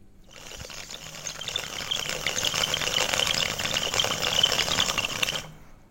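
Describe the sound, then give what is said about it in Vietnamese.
Tobacco smoked through a bamboo water pipe makes a steady bubbling, rattling gurgle. It starts softly, swells over about five seconds and then stops abruptly. “Ông đó ngồi bên cái điếu cày cũng thở dài, đưa tay với lấy bi thuốc lào nhét vào điếu, châm đóm lệch miệng qua một bên mà bập bập rít rít.”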